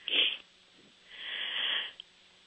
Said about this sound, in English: So I want you to take a really deep breath, and I want you to go into, I don't want to lose you, and I want you to hold your breath as long as you can